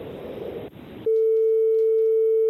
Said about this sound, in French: On va voir, on appelle le premier numéro.